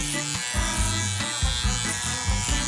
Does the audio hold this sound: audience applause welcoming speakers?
no

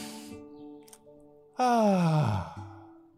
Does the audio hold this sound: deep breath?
yes

